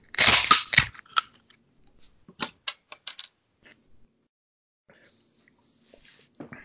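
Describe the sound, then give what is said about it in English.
A beer can is cracked open with a sharp, hissing burst at the start, followed by a few short clicks and light taps, then near silence with faint scattered ticks. “I'm going to tell you as soon as I crack my beer.”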